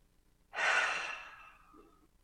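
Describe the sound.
A single deep breath, a soft breathy rush that starts abruptly and then slowly fades out, heard alone.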